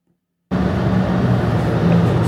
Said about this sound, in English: Please excuse the audio. Again, I'm recording this in my car.